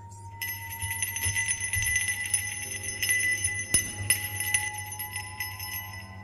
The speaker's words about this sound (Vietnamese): ông Cập bị đánh thức bởi tiếng leng keng như là tiếng chuông